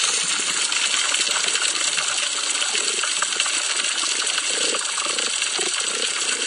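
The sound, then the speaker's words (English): A healthy coral reef heard underwater gives off a dense, constant crackle of snapping shrimp clicks over a low wash of water. The level stays steady throughout. “So that is the sound of a healthy coral reef.”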